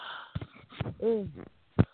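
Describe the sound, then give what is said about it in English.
A yawn from a man past fifty: a drawn-out voiced groan that rises and falls in pitch, set among a few short breathy bursts, with a sharp puff of breath near the end. “That's what happens to you when you get past 50. You yawn, try to fall over and fall asleep.”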